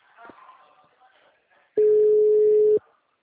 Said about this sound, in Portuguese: chamando agora.